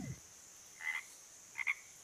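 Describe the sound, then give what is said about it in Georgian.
Frogs croak in a few short, buzzy, fairly faint calls, one and then a quick double, over a steady high background hum. “და ეს ბაყაყები.”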